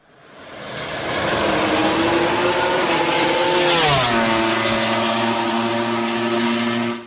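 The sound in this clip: A MotoGP racing motorcycle engine revs hard in a loud, sustained buzzing whine. Its pitch climbs slightly, drops sharply partway through, then holds steady at high revs before cutting off, with no voices.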